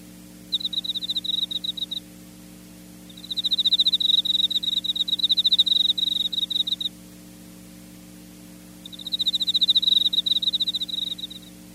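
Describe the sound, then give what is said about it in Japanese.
Crickets and bell crickets chirp as summer cicadas fade, in three bursts of rapid, high-pitched pulsing trills separated by quiet gaps, over a steady low hum. “空から降るように賑やかだったセミの鳴き声が、いつの間にか静かに小さくなり、代わってコオロギやスズムシたちが音色を競うように鳴き”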